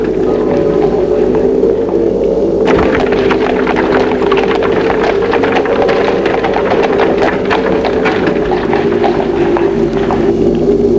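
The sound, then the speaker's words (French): Horse hooves clip-clopping on a path, a run of quick regular knocks that begins after a few seconds and continues over a loud, steady low drone. “On entend au loin le bruit du clopin. Puis d'un cheval.”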